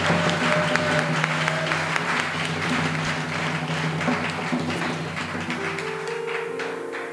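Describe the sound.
Applause from an audience at a worship gathering with hymns, a dense, steady clapping wash that holds at an even loudness for the whole stretch, with a low sustained tone faintly beneath it.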